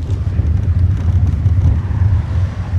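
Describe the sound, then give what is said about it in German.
A car drives off a country road onto bumpy, sandy tracks in rural Kashubia, Poland. A steady, loud low engine-and-road rumble rolls unevenly with small jolts throughout, with no talk. “dirigiert den Wagen runter von der Landstraße über Holperpisten und Sandwege”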